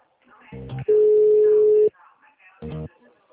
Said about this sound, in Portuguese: Aguarde um momento. Vamos redirecionar sua ligação para um especialista.